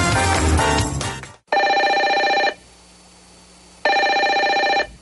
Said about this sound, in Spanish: Nos está entrando una llamada.